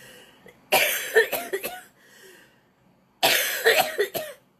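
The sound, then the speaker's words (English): A person coughs from a tickly throat in two bouts, each a rapid cluster of several harsh, breathy coughs, separated by a short quiet pause. “Excuse me, sometimes I get a tickly throat.”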